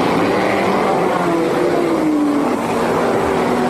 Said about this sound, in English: Look at this. Number 1, A.J. Ford, is coming into the pits again.